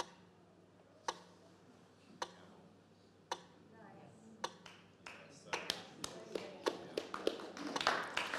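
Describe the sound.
A metronome ticks at a slow tempo: four sharp, evenly spaced ticks about a second apart, then a run of quicker, steady ticks over a low, constant hum.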